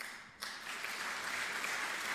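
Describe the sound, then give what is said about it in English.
A crowd applauds after a line in a state legislative address: a steady, dense wash of clapping rises abruptly and holds at an even level for about two seconds, with no voice over it. “So an applause line there”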